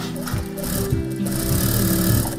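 Sewing machines running in a small sewing workshop with five machines, where summer trousers are being sewn: a loud, steady mechanical whir with a low rattling pulse, continuous throughout, with no talk.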